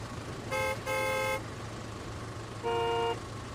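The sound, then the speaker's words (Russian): Car horns honking in a traffic jam, three toots over a steady road rumble: two close together and a third after a pause. “У нас небольшие проблемы. Пробка.”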